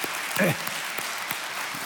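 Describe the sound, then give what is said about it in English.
An audience applauds to welcome a ministry outreach team, the Tarrant County Hands of Hope team, in a brief, soft burst of clapping with a voice over it. “Guys, would you stand? Let's just welcome that outreach team here. Let's give them a big hand, guys. Welcome.”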